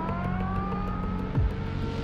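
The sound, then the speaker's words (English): A police car speeds down a street, heard as a steady, loud engine roar throughout, with no siren and no voices. “A police car speeds down the street.”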